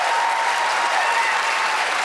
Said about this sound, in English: So you heard an applause line there